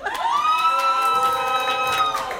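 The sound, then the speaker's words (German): An audience shouts "hoi" together on request, a loud sustained group call of many voices that carries steadily for about two seconds amid cheering. “Also wie viele Leute haben so jemanden da bei der, in dem Publikum von euch? Rufen Sie mal hoi.”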